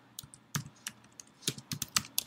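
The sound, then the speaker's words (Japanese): Typing on a computer keyboard while keywords are entered into a web tool: many soft, irregular key clicks in quick, uneven bursts, faint and with no talking. “キーワードの欄にキーワードを入力していきます。”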